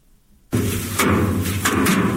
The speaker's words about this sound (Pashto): د کندهار په ډن ولسوالۍ کې کاروندګر خپل راټول سوي د ریحان او حاصلات ټکوي ترڅو ریحان له بوټو جلا کړي.